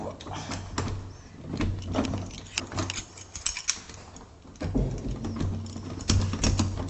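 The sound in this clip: A key is pushed into a door lock upside down in a flat under renovation, giving light metallic jangles, scrapes and clicks in uneven bursts.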